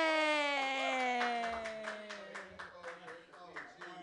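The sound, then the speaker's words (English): Audience applause greets a stand-up comedian at an open mic: scattered hand claps build under a long, sustained whooping voice that slides slowly downward in pitch, with the clapping growing denser toward the end. “Put your hands together, everybody, for David Marsteller.”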